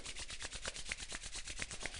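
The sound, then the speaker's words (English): Hands rub together during a seated breathing exercise, a soft, steady swishing of palms with rapid back-and-forth strokes in an even rhythm, with no talking. “exhale, rub the hands for a moment just to stimulate the body”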